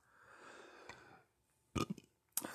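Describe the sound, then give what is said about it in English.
Low, gurgly burps from one person, two short bursts in the second half after a stretch of soft breathy noise. They are fairly faint, with no talk. “excuse me, I burp during this.”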